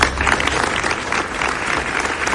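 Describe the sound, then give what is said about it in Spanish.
Steady crowd applause at a morning protest rally in Utrera, Seville, held in condemnation of a young woman's killing. Dense, even clapping runs throughout at a constant level, with no voices standing out. “Así han sonado los aplausos en Utrera en la concentración de repulsa que se ha celebrado esta mañana.”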